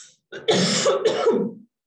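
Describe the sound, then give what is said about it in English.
A harsh cough with throat clearing, a couple of rough bursts run together into one short fit that stops abruptly. “Sorry, cough again.”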